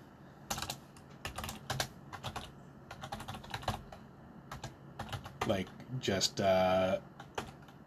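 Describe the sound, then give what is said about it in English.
Rapid typing on a computer keyboard, with many quick, uneven keystrokes clicking in bursts and short pauses between them throughout. “time where I'm not saying anything and you're just hearing me type.”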